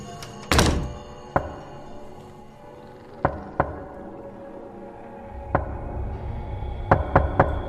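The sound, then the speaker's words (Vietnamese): Knocking on a door at night, heard as several dull, isolated thuds spaced irregularly, opening with one heavy thump, then lighter single raps, and ending in a quick cluster of three. “Tiếng gõ cửa vang lên rất rõ ràng ở trong màn đêm.”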